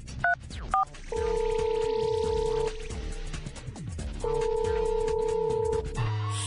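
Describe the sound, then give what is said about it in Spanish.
A telephone is dialed to call the 911 emergency number. Two short keypad tones beep, then two long, steady ringing tones sound on the line, with no voices. “Hemos emigrado al 911, al 911. A ver, déjenme marcar.”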